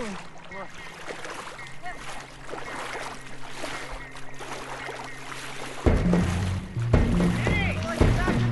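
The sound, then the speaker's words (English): Water sloshing and splashing as swimmers make their way back toward a boat, a low, steady churn under a man's talking voice that grows louder and busier in the final seconds. “Matt and the girls begin swimming back towards the boat.”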